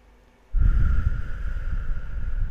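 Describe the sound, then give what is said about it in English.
A deep inhale begins abruptly and runs as a steady breathy rush for about two seconds, loud and unbroken. “let's stop and take a quick breath together. So breathe in all of God's love, grace, and compassion.”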